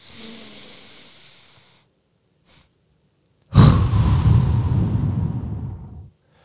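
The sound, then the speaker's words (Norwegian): A person demonstrates a breathing technique for getting rid of a side stitch. A deep, hissing inhale is followed by a short pause, a brief extra push of air, and then a long, loud, rough exhale that fades out. “Og det er eh, å puste inn maks. Og når du kommer inn eh, maks, så presser du ut en liten ekstra. Og så lang utpust. Det vil si det høres sånn her ut.”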